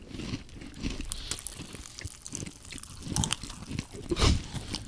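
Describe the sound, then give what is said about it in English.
Crunchy biting and chewing of a star-shaped cookie held close to the microphone: a quiet series of crisp crackles and crunches, with the strongest burst near the end. “So do we bite into it? Start, like, top of the star down on your tongue? Just eat the cookie.”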